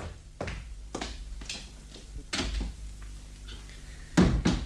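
A door being opened: a few soft wooden knocks and clunks spaced apart, ending in a louder clatter, with no voices.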